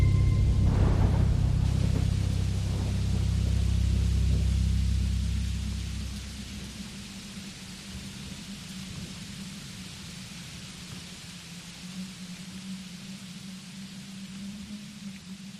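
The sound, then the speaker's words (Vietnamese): Rain with a heavy, deep rumble at the start; the rumble fades after a few seconds, leaving a steady, even hiss of rain that continues alone to the end. “Ở bên ngoài, trời bắt đầu đổ cơn mưa. Mưa lúc đầu chỉ lác đác, về sau to dần, rồi ầm ầm như trút nước từ đêm cho tới sáng.”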